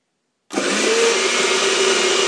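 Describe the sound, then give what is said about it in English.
A blender starts abruptly and roars with a steady, loud, dense whir as it blends a pumpkin mixture with grated orange zest, holding an even pitch throughout. “That's the last of the zest. I'm going to pop the lid on and blend. Here we go.”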